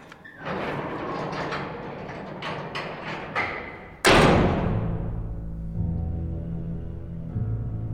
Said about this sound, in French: Attention, la porte se ferme.